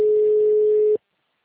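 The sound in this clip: A telephone tone sounds just before a voicemail greeting: one steady, mid-pitched electronic beep held for about a second, then cut off abruptly into silence.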